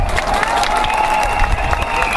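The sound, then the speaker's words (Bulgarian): A crowd applauds at an outdoor protest gathering on a national holiday: dense, continuous clapping holds steady at an even, loud level throughout, mixed with general crowd noise. “Нека да му ръкопляскаме!”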